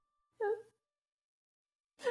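A woman starting to cry: two brief whimpering, moaning vocal bursts, the first short and trailing off, the second beginning after a silent gap of over a second.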